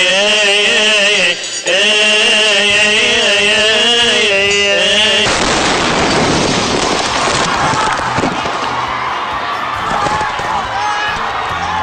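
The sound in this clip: An Egyptian Coptic Christian choir sings in sustained harmony for several seconds until a bomb detonated inside cuts it off abruptly. A harsh, broad burst of noise takes over, followed by a rough, rumbling, chaotic wash.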